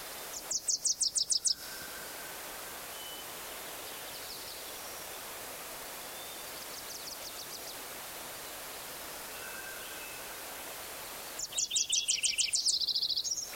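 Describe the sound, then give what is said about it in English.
Wilson's warbler song: two bursts of rapid, high, chattering trills, one at the start and one at the end, over a steady rushing background noise. “Eleven, Wilson's warbler again.”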